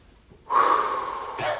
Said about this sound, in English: Before we pray, I just want us all to take a deep breath in. Hold it.